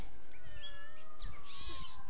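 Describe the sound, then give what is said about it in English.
A pet cat meows a few times while playing with a ball. The high, faint calls sit over a steady background hum. “Hi, kitty. Here's your ball.”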